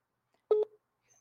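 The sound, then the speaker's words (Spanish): A telephone call on speakerphone connecting, heard as a single short electronic beep tone with a faint trailing blip after it, surrounded by near silence. “Pero bueno, voy a poner en altavoz. Espero que entre la primera”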